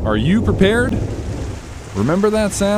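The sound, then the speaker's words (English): Heavy rain and rumbling thunder, with rain gutters overflowing. The steady downpour hisses throughout beneath a speaking voice. “That's the sound of your rain gutters last winter.”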